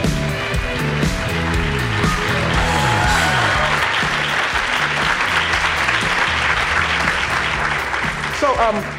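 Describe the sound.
Audience applause greets two guests walking onto the stage at a live talk event, a dense, steady wash of clapping that holds at full strength throughout.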